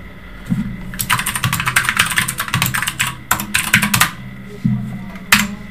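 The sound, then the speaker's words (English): Computer keyboard typing comes in quick bursts of dense clicking, loudest through the middle and again near the end, while a person talks over it during play in a fantasy role-playing game. “If I could type.”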